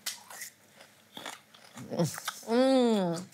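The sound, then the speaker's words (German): Someone chews raw rhubarb dipped in sugar, with a few crisp, crunchy bites and wet chewing, and then a person speaks. “Kennst du rohen Rhabarber in Zucker tunken? Haben wir irgendwo Zucker? Ja. Hier.”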